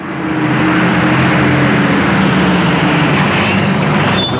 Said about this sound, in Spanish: Vamos a coger el autobús.